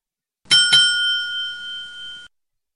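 Ringing bell with a bicycle-bell tone: two quick bright strikes, then a sustained high metallic ring that decays slowly and cuts off after about two seconds.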